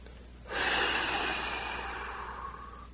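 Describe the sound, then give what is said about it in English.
A deep breath taken during guided meditation, a soft, airy rush that begins after a short quiet moment and is held for a couple of seconds, slowly easing off with no talk over it. “Let's take another deep breath and go deeper.”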